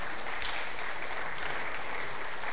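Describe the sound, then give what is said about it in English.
Applause from an audience at a Sunday morning worship service, a dense, even wash of clapping that holds steady for the whole short stretch. “I noticed you applaud 39 years, but you didn't applaud my birthday of 65 years.”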